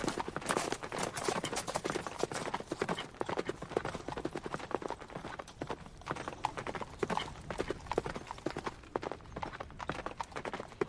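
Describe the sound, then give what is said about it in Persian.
Horses' hooves as riders enter a polo field, a dense, continuous clatter of many clip-clopping hoofbeats that keeps up steadily throughout. “الانم نگاه کنید از سوارها دارن وارد میدون میشن دروازه های چوگان رو بالا و پایین میدون میبینید خیلی خوش شانسید که میتونید یه مسابقه چوگان رو از نزدیک ببینید”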